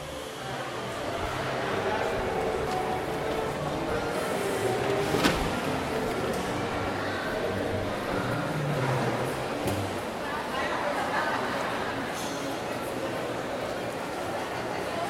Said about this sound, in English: This is the sound of the food court in Menlo Park Mall, Edison, New Jersey.